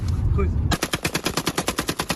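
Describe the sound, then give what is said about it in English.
Kalashnikov rifle gunfire, shown off by young gang members, cracks out in a rapid automatic burst of many sharp, evenly spaced shots after a brief rumbling lead-in. “In this video, posted on social media, young gangsters show off their Kalashnikov.”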